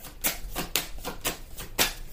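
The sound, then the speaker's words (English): Cards being drawn from a deck make a few faint, brushing swishes at a steady, even pace. “Let me just take some cards. We're going to wrap this up. May I have 3 cards, please?”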